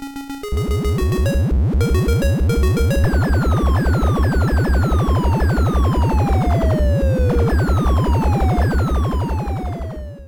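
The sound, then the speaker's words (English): Arcade horizontally scrolling shooter with an eight-way stick and fire and bomb buttons: a rapid, steady low pulsing beat runs throughout, overlaid with many falling whistle tones and sharp electronic bleeps. “It's a horizontally scrolling shooter, vertical screen, 8-way stick, 2 buttons, fire and bomb. It's Scramble hardware. It's based on Scramble very much like. Yeah. And it sounds like this.”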